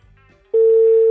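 Ringing tone of an outgoing telephone call, a steady, loud, single-pitched tone that starts abruptly after a faint low hum and holds unbroken to the end.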